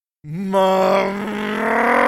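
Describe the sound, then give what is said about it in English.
A car motor revving hard, its loud droning pitch climbing quickly at the start and then holding high and steady, with no other sounds. “And when she hears me rev the motor like that, she's like, uh-oh, what's got you triggered in there?”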